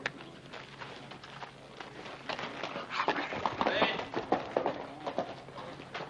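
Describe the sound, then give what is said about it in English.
Hoofbeats of a horse ridden down a street make a steady clip-clop rhythm. It starts faint and grows louder in the second half. “That's Hoss Cartwright riding down the street.”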